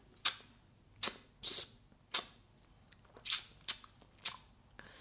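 Faint sucking clicks of someone drawing food from between the teeth after eating, several sharp, short tsk sounds at irregular intervals.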